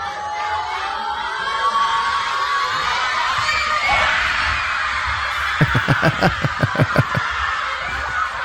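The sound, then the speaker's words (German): Schoolchildren at an early-morning school viewing of a football match react at kickoff. A murmur of young voices with shouts and giggles is followed by a quick run of sharp rhythmic pulses toward the end. “deshalb veranstalteten viele Schulen Public Viewings oder sagen wir besser School Viewings. Die Kids konnten freiwillig früher kommen und nach dem Spiel startete dann offiziell der Unterricht. Beim Anpfiff klang das Ganze so.”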